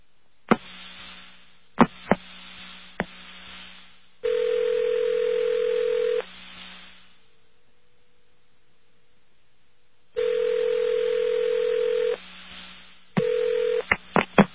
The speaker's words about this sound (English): Please hold while your call is being transferred. Isn't this convenient? Why, listen to all those clicks.